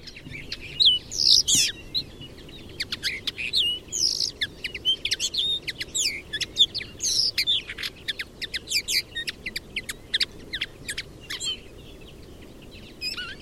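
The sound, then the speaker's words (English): Linnet song: a rapid, varied twitter of high chirps, trills and short notes runs through the whole passage, with no voices, over a faint steady low background rumble. “one of my favourites is the linnet, which is a handsome bird and probably a much better singer. We might listen to that for actually a second.”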